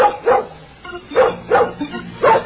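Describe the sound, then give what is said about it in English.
A dog barks in several short, sharp bursts, in uneven pairs with brief pauses between them. The barks are fairly loud and heard alone, with no talk. “The Tippy's the brilliantest, the smartest dog in the whole wide world.”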